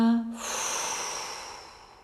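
Slow exhaling breath during a yoga exercise: a brief voiced tone at the start, then a long breathy hiss that gradually fades away.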